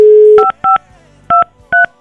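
A telephone is redialed after a call went to voicemail: a dial tone cuts off into four sharp keypad tones, spaced unevenly, each short and loud.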